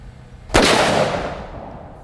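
A rifle shot from a stout round, fired as practice for a 4-bore: one sharp, loud crack that cuts off abruptly and leaves a broad tail fading over more than a second.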